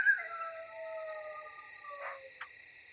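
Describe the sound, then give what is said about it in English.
A coyote howls in the distance further in the woods, a long, wavering tonal call with falling pitch, heard alone. “You hear a coyote howl.”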